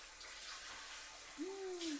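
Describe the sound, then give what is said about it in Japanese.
Running water splashes steadily as an adult man is washed and his foam rinsed off, a continuous hiss throughout with a short tonal squeal rising and falling near the end. “それじゃあ今度はおじさんを洗ってあげる。”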